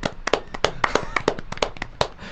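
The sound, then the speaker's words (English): Audience applause breaks out as hands clap in many sharp, irregular bursts, crisp and fairly loud, rising and falling unevenly as if from a small group. “Let's get a round of applause,”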